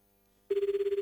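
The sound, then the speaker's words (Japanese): A telephone rings during a radio call-in, with a single ring burst beginning halfway through after silence. It is a loud, steady electronic tone with a rapid, even warble. “1 2コール目、3コール目きた。”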